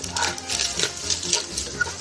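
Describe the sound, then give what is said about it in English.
Pancetta fat sizzling and popping in a frying pan, a continuous crackling hiss broken by quick, irregular pops. “fat from the pancetta is going to render right into this sauce and just add so much depth of flavor. It's like Rice Krispies. Can you hear it popping?”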